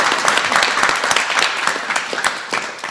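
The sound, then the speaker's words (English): An audience applauds loudly after someone recites scripture verses at a devotional class. Many hands clap together in a thick, lively burst that eases off slightly toward the end. “Okay, everyone give her a hand. Yay!”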